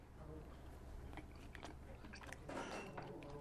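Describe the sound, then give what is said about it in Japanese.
Chewing and biting of tail meat dipped in soy sauce, heard as faint, soft, wet crunches and squishes that are irregular and close together. “これお醤油ですかはいわかりましたじゃあいただきます、はい、お醤油にちょんちょんしてね”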